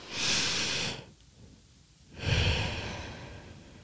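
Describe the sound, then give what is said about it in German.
Deep breathing during a mindfulness exercise: a long, airy breath, a quiet pause, then another long, soft breath. No talking is heard. “Und das kann man jetzt auch mal machen. Einfach einatmen.”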